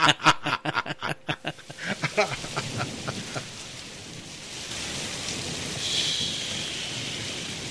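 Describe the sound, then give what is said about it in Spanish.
Rain sound effect: a steady, fairly quiet hiss of falling rain with no talk over it, following a run of rhythmic, evenly spaced bursts in the first few seconds. “Me voy a mojar. Qué lluvia.”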